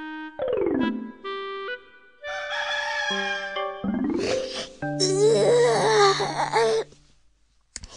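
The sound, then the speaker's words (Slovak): A rooster crows in a few loud, long, bright calls with rich harmonics. A dense stretch of clucking and cackling follows, heard alone without talk. “Dobre, že ma to kikiríkanie kohútika zobudilo.”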